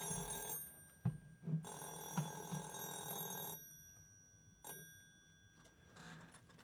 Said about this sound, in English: Oh, and it sounds like we've got a caller.